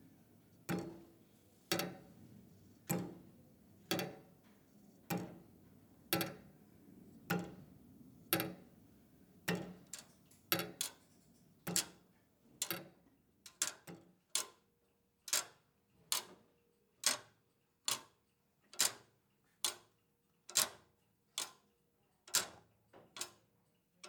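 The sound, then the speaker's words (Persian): Many mechanical clocks from a private collection tick away. The crisp ticks are steady and evenly spaced, with some beats doubling up where two clocks overlap, alone in a quiet space. “پدرش کلکسیونر ساعت بود. بخشی از صداهای اینا رو من ضبط کردم.”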